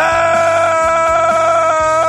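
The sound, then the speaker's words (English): Loud screaming, held as a steady, sustained high-pitched cry over a low, rhythmic pulsing background. “A little screaming early for you guys.”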